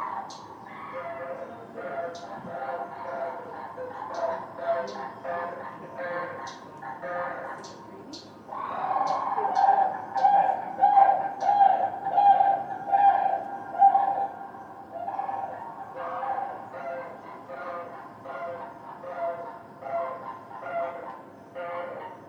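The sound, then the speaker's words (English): Sandhill cranes calling in flight on Michigan's Upper Peninsula near Lake Superior. They give repeated rolling, trumpeting calls in a steady rhythm, growing louder and denser through the middle before settling back to quieter calling. “It's not a pterodactyl, it is a sandhill crane. So they make those calls and then they do these. Where's the other one? Yeah, they do these kind of trumpeting things while they're flying around.”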